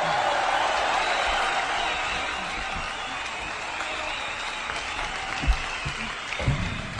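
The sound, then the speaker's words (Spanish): Applause for teachers and staff at a school radio program: sustained, dense clapping from a group that softens a little midway, with a few louder knocks near the end. “Ahí estuvieron los aplausos para todos, ¿viste? Que nos puso Alejandra.”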